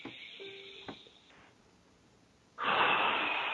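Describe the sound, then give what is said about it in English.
A deep breath from a person demonstrating slow breathing. A faint, airy passage comes first, then a loud, broad hiss of breath rises sharply and holds steadily to the end, with no talk. “I will demonstrate a deep breath. This is a deep breath.”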